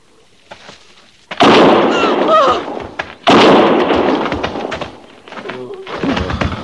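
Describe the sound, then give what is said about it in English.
Gunshots ring out in a dramatized armed standoff, two heavy blasts a couple of seconds apart, each a sudden loud crack trailing into a long noisy decay, followed by quieter scattered sounds. “One more step, and I'll fire.”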